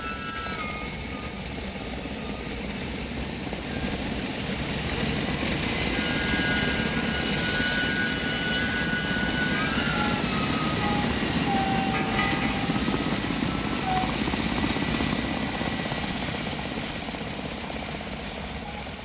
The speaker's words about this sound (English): It was only then I heard the screaming superchargers, and as they died away